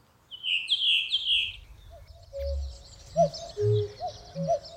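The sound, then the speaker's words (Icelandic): Redwing song in the Reykjavík Háaleiti dialect: a short run of high, clear whistled notes opens the phrase, followed by a soft, thin twitter, with a few lower, rounder tonal calls scattered after. “En í háaleitinu í Reykjavík hljómar mállýskan eins og þrösturinn segi ég veit, ég veit, ég veit.”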